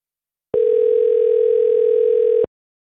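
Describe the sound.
A telephone tone as a call is placed: a single steady, mid-pitched tone with a faint buzzy edge that runs for about two seconds, then starts and stops abruptly, heard alone with no voices.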